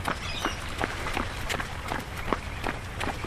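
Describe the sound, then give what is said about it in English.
Jogging footsteps from a person running without being able to see. The footfalls are steady and evenly spaced over a constant rough background noise. “Okay, let's jog. Can I run? Let's jog.”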